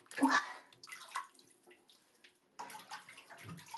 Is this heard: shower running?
yes